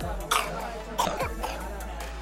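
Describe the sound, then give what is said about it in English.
Wet, croup-like baby cough from the back of the throat: a few harsh, rough bursts come in quick succession, fairly loud over a constant low hum. “Have you ever heard a baby cough? I'm not talking about one of those cute little ones, but like one of those”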